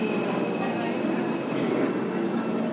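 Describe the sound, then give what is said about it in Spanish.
A metro train rumbles at a station with a steady, continuous roar. Faint high tones hum above the rumble throughout. “Y ahora cogeremos el metro. ¿Es este? El R.”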